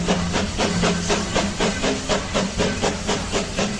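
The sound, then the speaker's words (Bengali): A large train passes loudly along the railway line, with a dense, steady hiss and many evenly spaced rhythmic pulses throughout. “তার কিছুক্ষণ পরেই আমাদের সামনের rail লাইনটার ওপর দিয়ে একটি বিকট আওয়াজ করে চলে গেল বিশাল যানবাহনটা”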